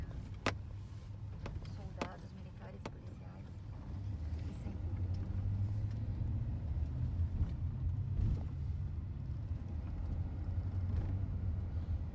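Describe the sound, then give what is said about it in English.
Low, continuous rumble of a motorcade of vehicles driving by on a street lined with National Guard soldiers. A few sharp clicks come early, and the engine drone swells slightly and then holds steady, with faint voices underneath. “for those of you listening to the show, it's just the motorcade driving by”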